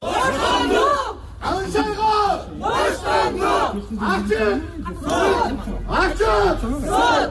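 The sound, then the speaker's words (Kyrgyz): About thirty people gathered outside a courthouse shout slogans calling for a journalist's release and an open trial. Their loud, rhythmic group chants rise in repeated bursts with short gaps between them. “Журналистти колдоп сот имаратынын алдына чогулган 30 киши Каншайга боштондук, сот ачык болсун деп кыйкырып турушту.”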